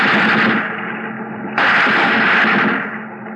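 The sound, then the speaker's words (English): Warning gunshots fired ahead of a ship at sea: two harsh, sustained bursts of gunfire, the second starting abruptly and louder after the first fades, with no talk over them. “Tire unos balazos adelante de él. We fired in front of him.”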